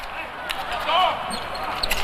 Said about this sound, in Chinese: 马东豪这加罚